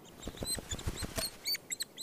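High, squeaky begging calls from white-headed woodpecker chicks as the parents feed them at a nest in a fire-charred tree. Many quick chirps come in a rapid, uneven series.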